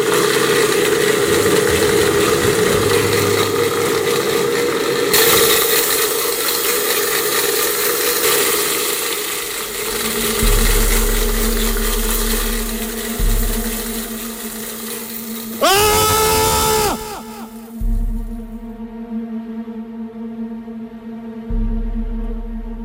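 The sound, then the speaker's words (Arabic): A blender runs in a kitchen, giving a loud, steady whirring motor roar that shifts in character partway through, with a brief surge and several abrupt changes in tone near the end. “صحيت على صوت خلاط شغال في المطبخ.”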